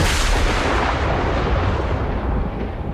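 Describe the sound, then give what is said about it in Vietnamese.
A sudden thunder clap: a loud, dense crack and rumble that fills the whole clip at steady strength for about three seconds and eases off slightly toward the end. “Tiếng sét đột ngột vang lên khiến cho hai người đang giao đấu theo bản năng tạm dừng.”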